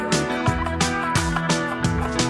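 Chicken calls repeating in a steady rhythm, each a short harsh cluck about a third of a second apart, loud and alone, with no voices.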